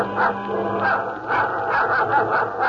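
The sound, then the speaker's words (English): A dog growls on the deck of a small bait barge at sea: a continuous rough, rumbling growl that swells in a few pulses, with no talk. “Suddenly, she hears Bobo's dog growling.”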